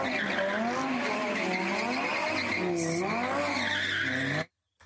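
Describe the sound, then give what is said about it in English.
Tires squeal continuously from an Audi R8 Spider doing donuts on an industrial estate, a loud wavering screech that rises and falls in pitch with the engine beneath it, then cuts off abruptly near the end. “That would be on a industrial estate with an Audi R8 Spider that I used to own doing some donuts.”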